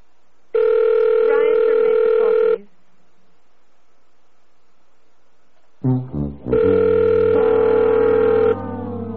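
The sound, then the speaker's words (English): Telephone line tones as a call to a UK number is placed: a long steady electronic tone, a silent pause, a brief cluster of clicks and blips, then a second long steady tone. “We'll be right back with the next prank call tonight. We're going to call the UK again.”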